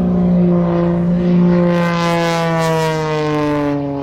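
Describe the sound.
An airplane takes off near Puerto Gaboto, a loud, steady propeller drone with strong droning tones that sag slightly in pitch and fade a little toward the end, with no voices.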